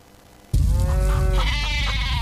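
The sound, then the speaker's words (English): Farm sheep or goats bleating: after a moment of low hum, a loud, sustained wavering bleat breaks in and carries on, rich and nasal, with no speech. “Hey, everybody, calm down. It's okay. Oh, it's coming. The farm animals can always feel it.”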